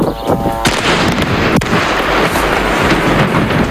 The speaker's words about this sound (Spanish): Este es el sonido de las bombas que caen sobre el Líbano, lanzadas por Israel. Desde hace semanas estamos escuchando este sonido.